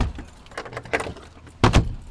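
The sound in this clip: Keys jingle and rattle at a museum restoration room door as it is locked, with a scatter of light metallic clinks ending in a louder, sharper clunk near the end.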